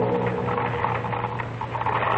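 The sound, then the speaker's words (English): A sewing machine runs in a tailor's workroom, giving a steady mechanical whir with fast rhythmic clatter and a constant humming tone, heard alone at moderate level. “Still at that sewing machine, brave little tailor? Why do you call me that, little mother? Because you are. You bend over that sewing machine day after day and never go anywhere.”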